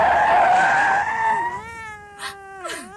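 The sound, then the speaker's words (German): A grey, neglected-looking cat crying out with drawn-out tonal meows, the last one gliding downward in pitch, after a louder, rougher opening sound. “Da, eine Katze. So grau und echt.”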